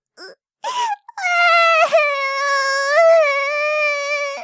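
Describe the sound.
A small child cries for an absent mother. A few short whimpering sobs lead into a long, loud, high wailing cry that wavers in pitch and is heard alone.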